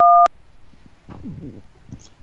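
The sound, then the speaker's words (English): A single two-tone telephone keypad beep sounds briefly at the start while dialing an extension on an automated phone line. Faint, muffled talk follows. “Please dial an extension now or dial 0 for assistance. Dial an extension.”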